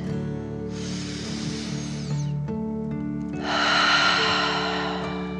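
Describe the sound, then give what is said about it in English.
A slow, deep breath is drawn in, then released in a longer, louder exhale. Each is a soft, airy rush over gentle sustained music tones. “You take a deep dragon breath in and out.”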